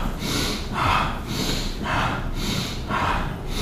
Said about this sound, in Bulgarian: Сега влез в бастрика 30 пъти само.